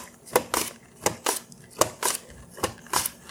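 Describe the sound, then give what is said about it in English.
Potatoes being sliced end-down on a mandolin into round cross-sections: quiet, crisp swishing strokes that come in about four pairs, with a regular rhythm and brief pauses between them. “I'm slicing these end down, so perpendicular, if you will, to the mandolin. So I'm getting nice round cross-section slices of the potatoes.”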